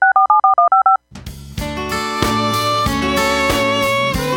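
Touch-tone telephone dialing: six rapid, even keypad beeps in quick succession, which stop abruptly before loud music starts and builds.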